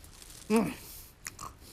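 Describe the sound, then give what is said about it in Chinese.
Biting and chewing on flower cakes (xianhua bing): a short muffled voiced mumble through a full mouth, followed by a couple of faint, soft mouth noises. “孟莹刚刚买了2斤鲜花饼，吃吧吃吧，先堵住你这张嘴。”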